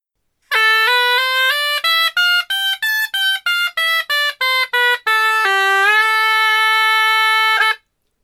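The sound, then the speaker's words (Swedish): A shawm plays an ordinary A minor scale in a bright, buzzing, reedy tone. Smooth notes climb step by step, then a run of short, separated notes follows, and it ends on longer sustained tones, heard alone without other sounds. “en vanlig A-moll-skala som är spelad på Skalmeja. Det låter så här.”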